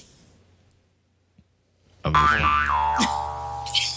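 A cartoon boing sound effect, played to mark something growing very quickly, bursts in after near silence as one loud, springy twang with a wobbling, bending pitch that rings on to the end.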